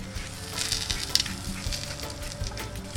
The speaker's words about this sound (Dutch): Dus ei, gebroken in een pan. half zacht, dooiers gebroken. En dan spek eroverheen.